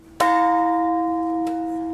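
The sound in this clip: A peace bell is struck once, giving a sharp attack and then a clear, sustained metallic tone that rings on and fades slowly, with no voices.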